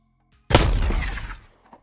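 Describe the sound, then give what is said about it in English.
A drone shatters to pieces when a sniper's bullet hits it: one sudden loud crash with a scattering, breaking tail that fades out within about a second. “The drone was firmly in his sights now, and he pulled the trigger and shattered it to pieces.”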